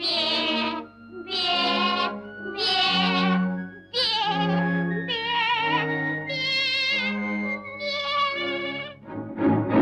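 A goat bleats over and over, many wavering, nasal calls following one another in a quick, uneven series. The bleats are loud and clear, with brief gaps between them and no talking.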